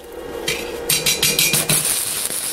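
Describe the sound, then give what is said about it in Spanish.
Stick welding electrode tapped and dragged on metal to strike the arc: a run of sharp metallic taps and scrapes, then a steady high crackling hiss as the arc catches. “Sería tal que así, golpear un poquito y arrastrando.”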